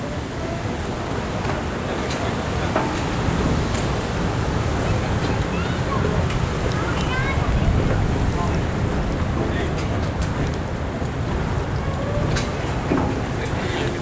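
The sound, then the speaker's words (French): Wind blows outdoors on Mont-Royal, a mountain in Montreal, as a steady, unbroken rushing roar that holds an even loudness for the whole fourteen seconds. “Ambiance, waouh. Un petit vent canadien passe entre vos oreilles.”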